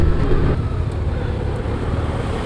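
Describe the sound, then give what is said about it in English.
A Honda Goldwing motorcycle with a flat-six engine is ridden around a corner, giving a steady, loud low engine drone mixed with continuous rushing wind noise and no clear changes. “Right, here comes a nice corner. Lean, lean, lean. I'm leaning, I'm doing it! I can ride a Goldwing.”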